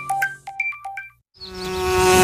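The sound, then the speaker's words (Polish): Bees buzz in a dense, droning hum with a rough, layered texture. It starts after a short silence and swells steadily louder for about a second. “Wszystkie pszczoły tam lecą.”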